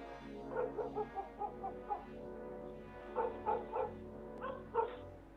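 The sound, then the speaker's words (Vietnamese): A stray dog barks fiercely with its hackles raised: two clusters of several sharp, harmonic barks, faint and on their own, with a short pause between the clusters. “Con chó sù lông lên, bắt đầu sủa dữ dội.”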